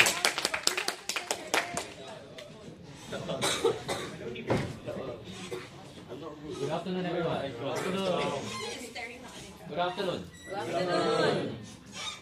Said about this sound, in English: Big round of applause, Mr. Ong, once again.